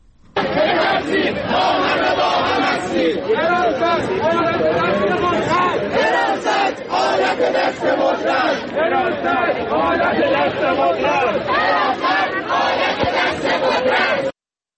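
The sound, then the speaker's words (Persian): Students at a protest on a university campus chant slogans against the campus security office. Many voices chant loudly together in a steady, rhythmic unison that continues throughout. “در این تجمع که در محوطه دانشگاه برگزار شد، شعارهایی همچون حراست پلیسی نمیخوایم نمیخوایم و حراست آلت دست قدرت سر داده شد.”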